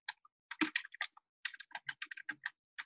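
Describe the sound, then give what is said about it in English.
Fingers type on a computer keyboard in quick, irregular bursts of faint clicking keystrokes, with brief pauses between runs. “You're going to type in something simple”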